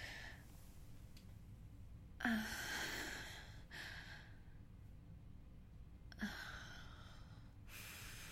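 A person takes two deep breaths, each a soft, airy rush lasting more than a second, separated by quiet pauses, faint overall.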